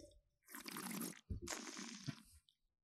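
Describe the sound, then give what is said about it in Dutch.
Slurping sips while tasting a sweet white Sauternes wine: two drawn-out, airy, wet slurps separated by a short pause, faint and soft. “ik ruik witte bloemen en abrikoos. Ja. En een beetje honing. Dus laat me eens even proeven.”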